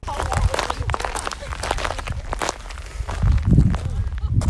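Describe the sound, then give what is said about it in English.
Broken-down cockle shells crunching under footsteps while walking ashore on a South Australian Spencer Gulf beach: many dense, gritty crunches in a continuous, loud stream. “That's the sound of broken down cockle shells crunching under my feet as I walk ashore.”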